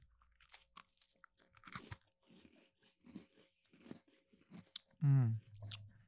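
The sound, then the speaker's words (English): Crunchy matcha-flavored Oreo cookies being bitten and chewed, a few sharp, crisp crunches scattered among people talking. “It tastes like regular Oreos. I don't taste the matcha at all.”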